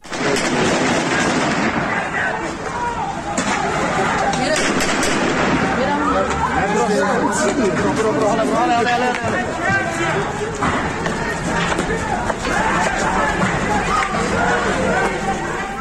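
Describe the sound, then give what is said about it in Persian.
Gunfire crackles during heavy street clashes at night protests in a border town in West Azerbaijan province, Iran. Many sharp shots ring out over a steady din of shouting crowd voices throughout. “ویدیوهای منتشر شده از شدت درگیری‌های سنگین حاکی هست که در اون صدای تیراندازی به وضوح شنیده میشه. الان یکی از اونها رو میتونیم بشنویم.”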